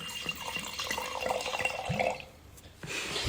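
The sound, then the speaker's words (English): A drink is poured into a glass, with a gurgling, splashing stream of liquid for about two seconds before it stops and a quieter hiss remains. “you need to be quiet to get the drink pour in the glass.”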